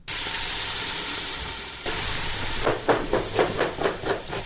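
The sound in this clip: Knife chopping carrots with force while cooking in a shelter kitchen: a quick series of sharp, rhythmic chops in the second half, after a steady sizzling hiss that continues underneath.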